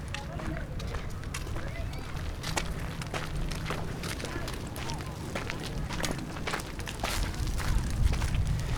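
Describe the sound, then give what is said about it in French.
Footsteps crunch across a pile of dry, bronze-coloured seaweed near a seawall: many steady, brittle crackling steps in a continuous rhythm, growing slightly louder toward the end. “marche sur un tas d'algues sèches, couleur bronze.”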